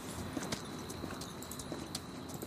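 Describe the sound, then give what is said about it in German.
Horse hooves clip-clop steadily as riders travel on horseback, a continuous even rhythm of many hoof strikes at moderate loudness, with no voices. “Und so reitet ihr relativ ohne weitere Vorfälle weiter und kommt schließlich durch Heimwiese”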